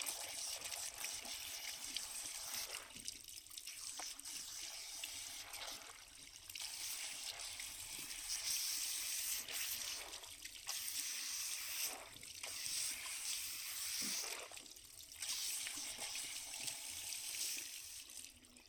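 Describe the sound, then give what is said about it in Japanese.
Warm water runs steadily during a hair wash, a soft continuous rushing stream that swells and dips slightly, faint and alone. “お湯加減いかがですか？熱くないですか？”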